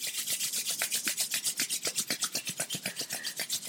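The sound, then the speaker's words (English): Palms of the hands rubbed briskly together, making a steady, rapid back-and-forth swishing of many even strokes that continues alone without any talk. “Rub your palms of your hands together.”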